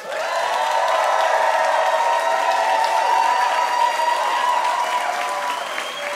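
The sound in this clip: A studio audience applauds a special guest arriving on stage, a full and continuous wash of clapping that swells quickly at the start, stays loud and even throughout, then eases slightly near the end.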